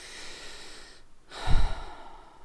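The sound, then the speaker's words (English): Deep, intentional breathing during a guided relaxation exercise: a soft, airy breath, then a short pause and a fuller, louder breath near the end. No one speaks. “Let's breathe deeply for two deep intentional breaths.”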